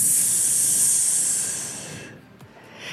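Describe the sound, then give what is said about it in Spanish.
A steady, sharp hissing 'S' made by a person exhaling slowly during a breathing exercise, held evenly for about two seconds before tapering off into quiet breath noise. “Pero al mismo tiempo que exhalas, vas a estar haciendo el sonido de la S.”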